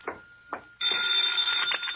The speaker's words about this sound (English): Hey, how come you're answering the phone?